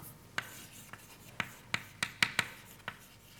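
Drawing on a board during a physics lecture: eight short, sharp strokes and taps, irregularly spaced and some clustered, with no talking.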